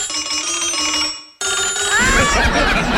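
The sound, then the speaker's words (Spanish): A telephone rings with a bright electronic tone that breaks off for a moment, then resumes with warbling, chirping notes over rising noise. “Si su teléfono suena así.”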